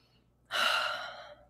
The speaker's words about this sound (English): just take a deep breath and relax.